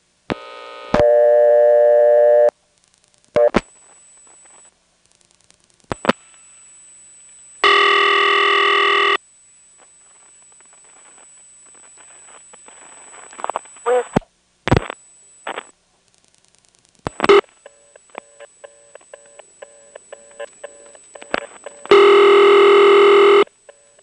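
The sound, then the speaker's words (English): Telephone exchange intercept trunk ringing, followed by a long switchhook flash and dialing of the operator intercept code: loud steady tone bursts separated by gaps and sharp clicks, then a run of short, evenly spaced tone pulses with a final loud burst. “You'll hear the ring from the intercept trunk. The recording starts up, then I do a long flash and dial the code for operator intercept.”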